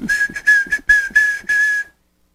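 A person whistles Morse code (CW) as a sequence of about six steady, high, clear tones of mixed short and long lengths, separated by brief gaps and ending in silence.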